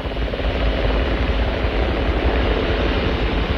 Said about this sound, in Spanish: Un helicóptero rescata a Shepard en el Océano Atlántico y lo lleva al portaaviones Champlain.